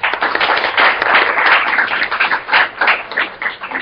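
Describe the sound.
An audience applauding to welcome the first speaker to the podium at a public talk on agricultural land grabs: a short, loud burst of steady clapping with gently pulsing intensity and no voices.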